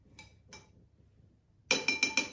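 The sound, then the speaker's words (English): A spoon clinks against a glass as a drink garnished with dehydrated orange is stirred. Two faint taps and a pause come first, then a quick run of bright, loud, rhythmic clinks. “And then to that, we garnish with a nice dehydrated orange. You can use fresh orange if you like. In it goes. We'll give it a little stir just to mix everything up.”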